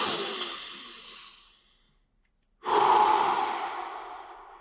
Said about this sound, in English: Do one last breath with me before we end this video. All the way in with force